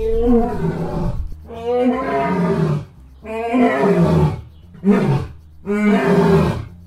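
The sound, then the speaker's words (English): An Asian lion roars at a zoo in Dublin, giving five deep, rough, loud roars separated by short gaps, the fourth noticeably shorter than the others. “That was the sound of an Asian lion roaring in Dublin Zoo. If you said lion, you are correct.”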